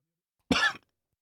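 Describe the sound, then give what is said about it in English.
A single short, sharp cough, heard alone against silence. “See what happened right there, folks, is I started coughing.”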